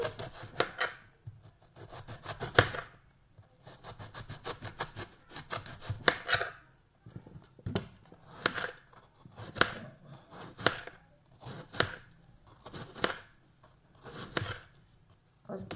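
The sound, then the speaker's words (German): A knife cuts an apple into small slices. Many crisp, rhythmic cutting strokes come in quick runs, each a short scraping crunch, with brief pauses between the runs. “Also, wir schneiden jetzt den Apfel in lustige kleine Scheiben.”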